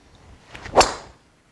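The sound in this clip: A golf driver with a stiff Tensei shaft and 8-degree loft strikes a ball: one sharp, whip-like crack that decays quickly, with nothing else before or after.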